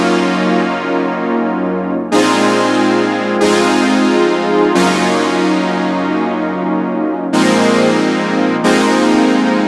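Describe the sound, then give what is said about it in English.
A fat, thick synthesizer plays on its own, loud sustained notes with rich layered harmonics, changing pitch a few times in a slow, even rhythm. “Well, we had this fat synth that we should play now. So this synth on its own sounds like this.”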